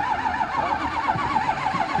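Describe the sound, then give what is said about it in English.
A car engine cranks without catching, the car suspected to be out of fuel: a steady, rhythmically pulsing starter whir that continues throughout at moderate level without firing into an idle. “trying to figure out how to get this car started. There's a rumor that it may just be out of gas.”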